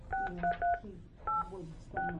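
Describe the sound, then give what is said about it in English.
Telephone keypad tones as a PIN is entered on a conference bridge line: several short electronic beeps in uneven clusters, separated by brief pauses, with no voices. “Please enter your PIN number now. I'm sorry, we did not receive all the digits dialed. Please try again.”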